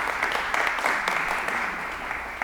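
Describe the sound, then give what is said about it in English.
An audience applauds a guest speaker, a dense and even patter of clapping that holds steady for a couple of seconds. “So let's give Joe a round of applause.”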